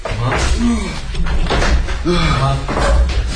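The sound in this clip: Police forcing open a front door: several heavy, sharp blows and thuds land at intervals, mixed with loud shouting voices throughout.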